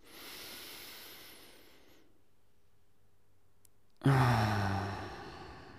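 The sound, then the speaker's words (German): A person takes a deep breath during a guided breathing exercise: a long, soft airy inhale, a held silent pause, then a sudden loud, voiced sighing exhale that slowly fades. “Lass uns nochmal einen tiefen Atemzug nehmen.”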